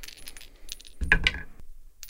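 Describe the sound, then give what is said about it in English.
Metallic chime dice rolling during a tabletop role-playing game, with many bright tinkling clicks and rattles in small clusters and the loudest tumble near the middle, with no voices. “God, I love those chime dice so much. Yeah, it's incredibly... It's like ASMR.”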